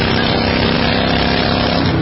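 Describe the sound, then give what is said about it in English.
Steady, loud roar of wind and engine while riding a motorcycle, a dense continuous rush that swamps the commercial playing on the bike, with no clear voice coming through. “And this is what that same commercial sounds like on your motorcycle.”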